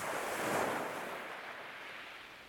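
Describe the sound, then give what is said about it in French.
Sea waves washing against rocks as a continuous, broad hissing surge that swells slightly early on and then eases into a steady, softer rush, with no voices. “Le théâtre représente une mer et des rochers, d'un côté et de l'autre, quelques arbres et des maisons.”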